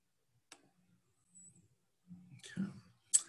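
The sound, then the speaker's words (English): A computer mouse's buttons are clicked, giving a couple of sharp, isolated clicks separated by near-quiet with faint murmuring sounds in between. “I will click a couple of buttons and bring up the song for us.”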